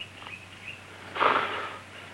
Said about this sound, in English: They watch intently as a stricken man takes a few deep breaths.